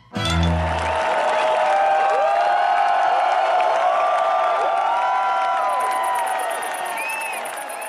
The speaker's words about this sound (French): sous le chapiteau, Georges se sent drôle. Tout le monde applaudit le metteur à l'abri.